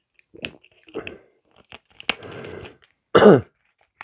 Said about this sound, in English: I'm just going to take a little bit of a minute break while I take a sip. I brought a McGuigan.